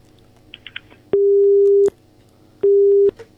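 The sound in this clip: A telephone busy tone follows a cut-off call: two long, steady, loud tones of equal pitch separated by a pause, with a few faint clicks before them.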